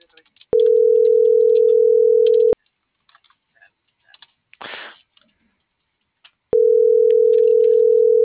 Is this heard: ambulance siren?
no